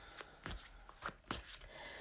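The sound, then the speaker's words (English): Tarot cards being shuffled and drawn: quiet, brief papery riffles and slides of the deck recur several times at an irregular pace. “let's pull more cards for you.”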